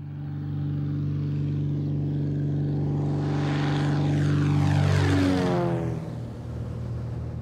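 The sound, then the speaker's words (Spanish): Propeller airplane droning overhead, a sheriff's plane on an aerial search; the steady engine hum swells louder, then its pitch drops sharply as it passes and fades. “Las autoridades locales y estatales usaron cada herramienta a su disposición, incluyendo el avión del alguacil Nettleton.”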